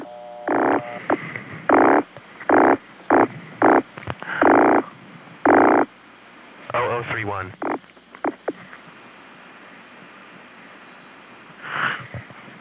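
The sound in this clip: A telephone number being dialed on a phone line with tones: about seven short tone bursts in a quick, uneven rhythm, followed by some warbling line sounds and a fainter burst near the end.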